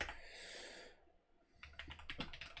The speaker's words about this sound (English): I have to type it in.